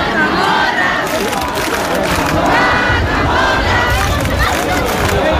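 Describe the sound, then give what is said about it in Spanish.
A dense crowd chants and shouts at the traditional, centuries-old Cascamorras festival in Baza, attended by 17,000 people, producing a loud, continuous wall of voices with rhythmic swells. “17.000 personas participaron ayer tarde en la tradicional y centenaria fiesta del Cascamorras en Baza.”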